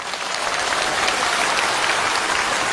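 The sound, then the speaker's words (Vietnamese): Audience applauding a Buddhist nun's dharma talk, an even, continuous wash of many hands clapping at a steady loudness throughout. “Các vị vỗ tay làm cho sư mãn nguyện quá.”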